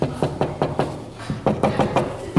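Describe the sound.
Knocking on an old door: many sharp, moderately loud raps in a quick, fairly regular rhythm, with a short pause midway before the rapping resumes.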